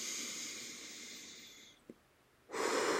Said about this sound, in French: Au fur et à mesure que nous soufflons,